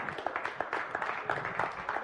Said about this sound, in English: Thank you for clapping for that. I love that I'm in a church that believes that.